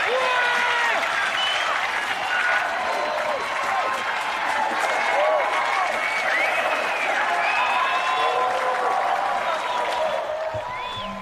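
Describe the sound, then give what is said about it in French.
Audience ovation: dense, sustained applause and cheering with shouts and whistle-like cries rising over the clapping, holding loud and steady for about eleven seconds. “C'est une ovation!”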